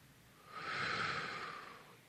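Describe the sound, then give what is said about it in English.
One slow, deep breath is taken during a sermon on fear. It is a soft, airy rush that swells and fades over about a second, quiet and alone. “One more time, just take a deep breath.”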